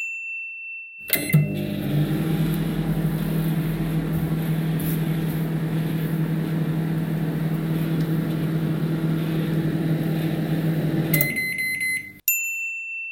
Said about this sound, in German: Das erste Geräusch war... Genau, es ist die Mikrowelle.